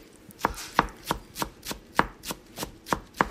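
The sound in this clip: A chef's knife chops herbs for a chicken marinade in a Beirut restaurant kitchen: a steady, even run of crisp, sharp strikes on the board, alone with no talk.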